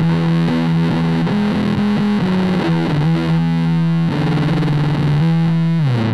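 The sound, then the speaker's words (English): An electric guitar plays through an effects pedal set to 8-bit digital conversion at the original pitch, producing a gritty, distorted, buzzy tone as a run of many notes is played at a steady pace. “In the normal, it's the same pitch with 8-bit digital conversion when the control knob is fully clockwise.”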